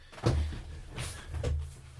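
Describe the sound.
A studio door is opened with two soft, muffled low thuds and a faint rustle between them, fairly quiet and without any talk.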